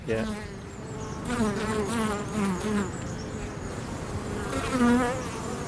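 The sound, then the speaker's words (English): Native Irish bees buzzing around a small alder tree, a continuous droning hum whose pitch wavers and shifts as individual bees pass close, moderately loud throughout. “I have a tree here with native Irish bees, and they're very important because apparently they're rare, and just this little alder tree.”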